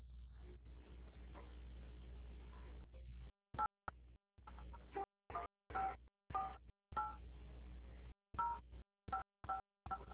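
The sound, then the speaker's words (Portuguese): Touch-tone keypad beeps as a caller enters a CPF number into an automated debt-collection phone line: many short, clipped tones in a quick, uneven sequence, following a few seconds of low, hissy line noise. “Para facilitar o atendimento, digite o número de seu CPF.”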